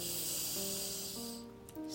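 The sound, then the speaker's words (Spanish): A deep breath in during a guided breathing exercise, a soft, airy hiss of slow inhalation held over steady, quiet background tones. “Vamos a repetirlo y siente cómo el aire llena tus pulmones. Inhala de nuevo.”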